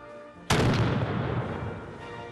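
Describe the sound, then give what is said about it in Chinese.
A sixteenth-century cannon fires a single loud, sudden blast at a public artillery demonstration. The boom is followed by a long, rumbling decay over steady background noise. “而这一门是十六世纪的火炮， 开火！”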